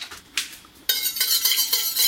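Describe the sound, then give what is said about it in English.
A metal spoon stirs vanilla extract and honey mixture in a pot with the heat off, scraping and clinking against the sides in quick repeated strokes that grow louder and denser after a quieter start. “Just give that a little stir.”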